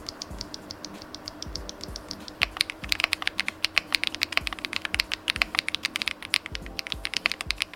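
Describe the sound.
Typing on a mechanical keyboard with tactile two-stage SWX 1 Galaxy Pink switches: many crisp, irregular keystroke clacks that grow louder and denser after the first couple of seconds, with no talk.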